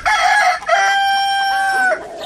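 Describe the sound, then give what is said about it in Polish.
A white rooster, crossed with a crested breed, gives one loud, sustained crow: a bright, harmonic call that holds steady for about two seconds before breaking off at the end. “To jest kogut, on jest mieszanie z czubatką. Ten biały kogucik.”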